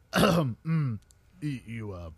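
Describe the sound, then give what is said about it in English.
A voice imitating a polite cough, giving a few short voiced throat-clearing bursts separated by brief pauses. “the Reaper just kind of like coughs politely”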